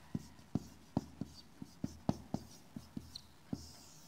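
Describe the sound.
Handwriting with a pen or marker: a steady series of short, crisp strokes and taps in a loosely regular rhythm, roughly two or three per second, with a soft scratchy hiss between them. The sound is fairly quiet, and nobody speaks.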